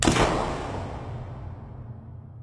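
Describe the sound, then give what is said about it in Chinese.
A single pistol shot gives a sharp bang at the start, then a long rumbling tail that fades slowly. No other sounds or voices are heard. “余生海就从怀里掏出另一把黑枪，毫不迟疑地扣下了扳机。”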